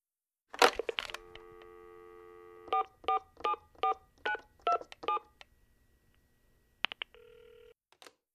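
Telephone keypad tones: seven short, evenly spaced beeps over a steady dial tone, then a brief ringing burst near the end. A sharp clatter opens the sequence.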